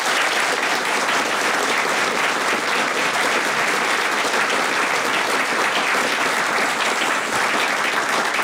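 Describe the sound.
An audience in Milton Keynes applauding to welcome a radio question panel: dense, steady clapping that holds at an even, full level for over eight seconds.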